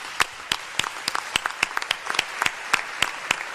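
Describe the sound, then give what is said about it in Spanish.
Applause from a modest group, many distinct sharp claps in an uneven, loose rhythm at moderate loudness, without talking. “Un aplauso para las abuelas.”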